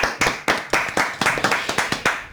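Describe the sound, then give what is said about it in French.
A single person clapping their own hands during a French talk show, a brisk, steady run of sharp, loud claps in an even rhythm with nothing else alongside. “Je vais m'applaudir moi aussi pour faire un peu de bruit en plus.”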